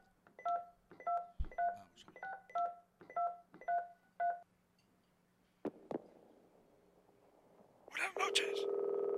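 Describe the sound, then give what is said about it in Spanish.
Telephone keypad tones as a number is dialed: a quick, evenly spaced series of short beeps, then a couple of sharp clicks and a pause before a louder, steady tone starts near the end. “Vamos a llamarle. Estamos marcando para...”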